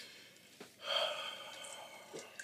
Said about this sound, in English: I took a deep breath for the listening audience. All right, I just took a deep breath.